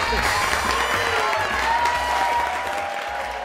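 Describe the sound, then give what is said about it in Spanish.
Applause from a studio audience at a late-night talk show: dense, steady clapping that holds at an even, loud level for the whole clip. “Démosle otro aplauso”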